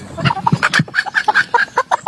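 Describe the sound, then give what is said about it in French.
Farm hens cluck busily in a rapid, uneven stream of many short, bright calls at a lively, fairly loud level, with no other sounds apparent. “Sa journée commence souvent par s'occuper de ses poules.”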